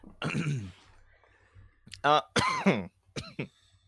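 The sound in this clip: Harsh coughing and sputtering from someone choking on water that went down the wrong pipe, in several loud, voiced bursts of uneven length separated by short gasping pauses.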